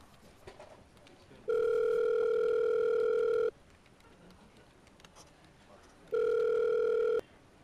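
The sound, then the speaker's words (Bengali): Ringing tone of an outgoing phone call: two long, steady, evenly pitched tone bursts separated by a pause, over faint background noise. “আচমকা কি মনে করে ফোনটা করেই বসলো মেঘলাকে”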